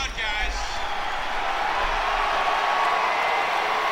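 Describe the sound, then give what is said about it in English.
A crowd at a live event cheers in a loud, steady roar of voices that continues throughout. “The crowd cheers.”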